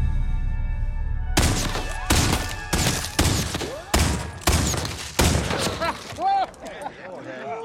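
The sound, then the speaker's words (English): Gunfire from a Confederate sharpshooter in a film: a rapid run of sharp, loud shots with ringing tails, followed by a man's voice as the shooting stops. “That's some fancy shooting there.”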